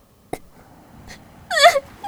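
A brief bout of crying: a couple of faint sniffs or catches, then a short, high, wavering sob that wails downward near the end. It is fairly loud against a quiet background.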